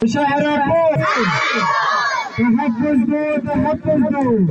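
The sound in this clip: Children shouting slogans at a protest against killings, many young voices chanting loudly and almost without pause, with a brief surge of brighter, noisier crowd shouting near the middle.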